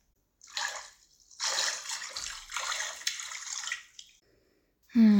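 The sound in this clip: Someone is washed in a bath, with water sloshing and splashing in a few separate bursts with quiet gaps between them. A voice starts briefly at the very end.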